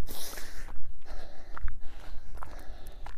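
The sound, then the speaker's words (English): Footsteps of someone walking on a treadmill during a walk break, a steady run of soft, even thuds with light breathing over a continuous mechanical rumble. “treadmill's not particularly accurate. So, let's take a walk break here.”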